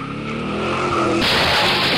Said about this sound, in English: He pulls forward, aiming straight for the stolen emergency truck. With a clear shot, he accelerates.